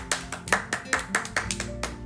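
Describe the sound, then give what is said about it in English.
Audience giving a round of applause at a talent event: a steady run of sharp claps in an even, quick rhythm, each one crisp and similar in loudness. “Okay, let's give her a round of applause.”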